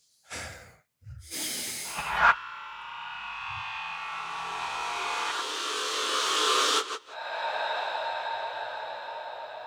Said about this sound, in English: Can we just take one deep breath together?